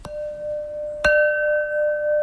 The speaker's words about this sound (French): Ce son-là, il n'y a que la porcelaine qui le donne.